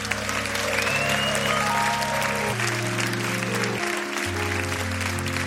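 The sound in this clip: A festival concert audience applauds a band member. Steady clapping runs over sustained, held musical tones that shift pitch a few times.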